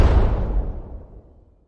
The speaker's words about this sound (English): I'll give you a remote bomb noise for the people in the cabin.